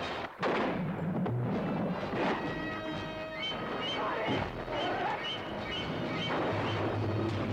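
A rifle shot fired at an approaching shark, roughly 25 feet long, during a tense film scene. A sharp blast comes after a brief gap near the start, then a dense, loud roar with sustained musical tones runs throughout.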